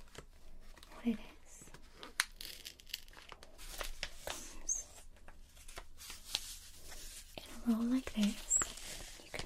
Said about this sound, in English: use some of this tape. Let me show you.